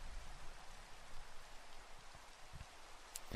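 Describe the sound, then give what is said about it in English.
Light drizzle falls steadily as a soft, even hiss of rain with faint scattered drop taps and no voices. “shielding the paper from the continued drizzle”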